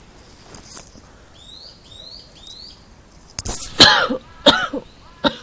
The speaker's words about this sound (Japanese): ごめんなさいちょっとね昨日からコホコホが私気管支がちょっと弱っているのかちょっとコホコホが出るので